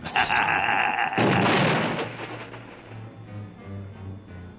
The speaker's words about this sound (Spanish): Nos va a disparar con una zanahoria.